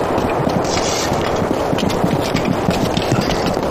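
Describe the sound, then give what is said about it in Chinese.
Horse hooves clopping as a rider rides off, a dense, rapid run of hoof strikes at a steady, fairly loud level throughout, with no voices. “马记者已经骑马走了”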